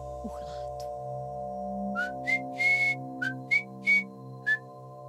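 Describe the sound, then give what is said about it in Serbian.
A woman whistles a short tune of about seven bright, clear notes, one held longer than the rest, over a soft sustained musical background. “E, sad mogu da uživam u zviždanju bez prekidanja i da sedim sama”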